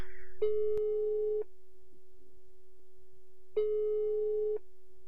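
Ringback tone of an outgoing telephone call, heard as two long, steady, low beeps of about a second each, separated by a silent pause.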